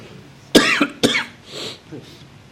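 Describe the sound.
Two sharp, loud coughs come in quick succession, followed by softer throat-clearing sounds, over low background noise.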